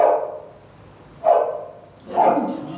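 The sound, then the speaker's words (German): A dog barks three times, spaced about a second apart. The barks are mid-pitched and moderately loud, with no other sounds. “Das ist ein Hund.”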